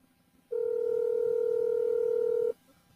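Telephone ringback tone from a call that rings out unanswered: one steady, unbroken two-second tone, moderately loud, with no voices around it.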